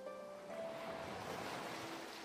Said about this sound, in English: Then you exhale, watching as the waves crash against the shore.